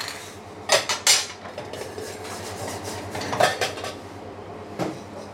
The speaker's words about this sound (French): Donc là, on a notre vin blanc qui bout. On plonge les coques.